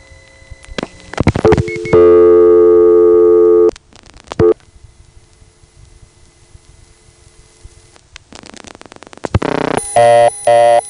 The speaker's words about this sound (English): Now, 9 as a second digit, as in dialing 4-9, is going to be blocked. That's because 4-9 is a dialing error, no matter how you look at it. So let's verify that first. Here's 4-9.